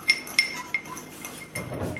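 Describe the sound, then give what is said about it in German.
A spoon stirring in a bowl while mixing ingredients before butter is added. Three bright, sharp clinks come at irregular intervals, followed by a softer, rougher scraping swirl near the end. “Rühr mal ruhig.”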